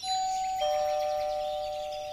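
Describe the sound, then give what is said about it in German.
Two-tone ding-dong doorbell ringing at a house: a bright first chime, then a lower second note that rings on and slowly fades, alone with no voices. “Jetzt sind sie bei Fatimas Haus angekommen. Bobo darf klingeln.”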